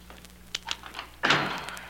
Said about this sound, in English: What's the matter with this lock? Oh, it's not the lock, it's me. There.